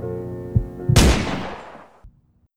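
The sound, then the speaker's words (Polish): A single loud gunshot bursts over soft background music, followed by a long, rough tail that fades for about a second before cutting off. “Padł też strzał.”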